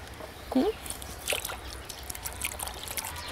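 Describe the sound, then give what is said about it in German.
Water trickles and splashes in a few quiet, brief bursts as an animal's painful, diseased foot is cleaned and wetted. A short voiced sound comes near the start. “Kann man ein bisschen sauber machen? Erstmal sauber. Ach, und jetzt wird's nass.”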